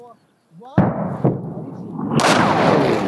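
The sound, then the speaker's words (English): Artillery rounds explode in Bucha. A sharp, heavy blast is followed by a smaller boom and then another loud explosion that trails into a long, rolling rumble. A voice is briefly heard just before the first blast. “We hug the earth. Two more artillery rounds.”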